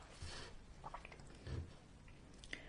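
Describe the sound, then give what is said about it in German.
Someone takes a sip of a drink: faint, soft wet mouth and swallowing sounds, a few quiet events with no talk. “Ich trinke gerade noch mal einen Schluck.”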